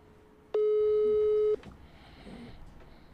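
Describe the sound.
Telephone ringing tone on a call that goes unanswered: a single steady beep lasting about a second, followed by quiet line noise with no pickup.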